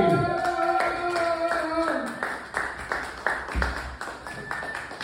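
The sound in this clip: Audience applause and clapping at a stand-up comedy show as a comedian comes on stage. Vocal sounds are heard early on, then scattered, uneven claps continue, loud at first and thinning toward the end.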